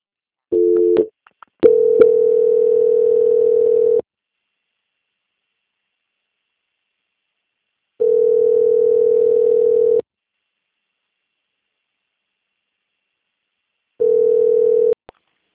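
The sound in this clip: Telephone line tone on a bank customer call being transferred to quality control: a couple of brief blips, then three steady, mid-pitched tones of about two seconds each, separated by long silent gaps, with no voices.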